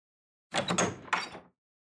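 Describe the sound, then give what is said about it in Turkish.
A door being opened: a quiet, brief burst of latch and handle rattling followed by a second scraping clunk, lasting about a second with nothing else heard. “hemen kapıya koşuyor ve kapıyı açıyor.”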